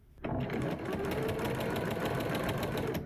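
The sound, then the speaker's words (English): A sewing machine stitches a seam on a blazer, running in a continuous fast mechanical whir with a rapid, even chatter of the needle from start to finish. “Let's get this seam done.”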